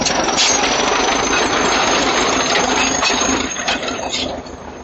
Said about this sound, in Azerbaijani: Elə girəcəkdə cəmaat yığışıb yolu təmizləyən traktoru tamaşa edirdi.